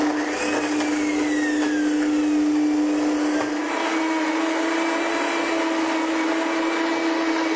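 A blender grinds vegan pesto sauce into a fine paste with a loud, continuous motor whir and a steady whine that holds throughout, with no pauses and no voices.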